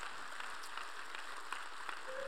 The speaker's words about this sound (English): Come on, give God a clap if you're going to clap. Clap properly.